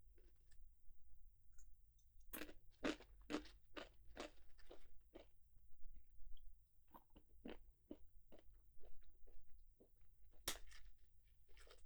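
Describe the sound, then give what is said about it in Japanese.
Crisp crunching of peanuts being chewed, many sharp, irregular crunches and clicks, fairly soft, with no talk. “ピーナッツだけ食べてもいいよね。”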